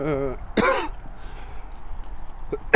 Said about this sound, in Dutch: sorry, ja, ik hoest een beetje.